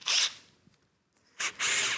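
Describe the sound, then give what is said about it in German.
High, whining buzz of a drill with a small bit boring a pilot hole to guide a larger bit: two short bursts separated by a quiet pause. “Genau, da kann man sich auch wunderbar dann helfen, indem man hier vorbohrt. Dadurch hat dann der große Bohrer eine Führung und verrutscht einem nicht.”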